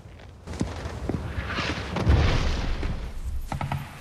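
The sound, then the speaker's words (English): Mortar fire explosions in a war film scene: faint, muffled booms and low rumbling, with one heavier thud rolling through near the middle. “That be my Alpha Company taking out their spotters. I'd expect this mortar fire to stop shortly, sir.”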